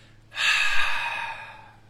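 A single long exhale during a guided breathing exercise: an airy breath that starts suddenly, peaks early, then slowly fades, heard alone without speech.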